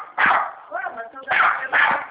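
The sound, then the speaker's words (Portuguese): An agitated dog barks in a few quick, sharp bursts, loud and yappy, with short gaps between them. “o cachorro está maluco”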